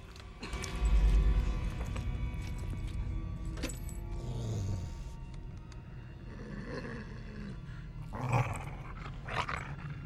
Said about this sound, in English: The dog looks up, snarling.